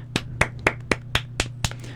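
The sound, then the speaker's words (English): Clapping welcomes a new freshman member of a student organization: seven evenly spaced, sharp claps at a steady rhythm, fairly quiet, over a low constant hum. “Everyone clap for Sam.”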